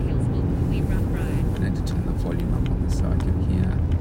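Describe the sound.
Steady low rumble of a car being driven along a road, a constant droning road and engine noise under a person talking throughout.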